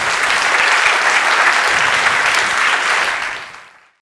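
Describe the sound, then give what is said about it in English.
Applause from a lecture audience welcoming a professor to the stage, a dense, steady clatter of many hands that holds evenly for about three seconds and then fades out. “So could you please give a big welcome to Professor David Lyon.”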